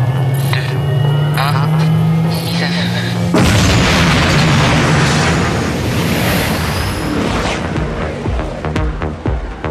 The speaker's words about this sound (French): Propulseur opérationnel. Mise à feu dans 5 secondes. 5, 4, 3,